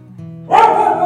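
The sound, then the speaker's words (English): A schnauzer gives a single sharp bark that bursts in after a quiet, low-humming start and rings on briefly. “we did have a big-nosed schnauzer meandering around the house”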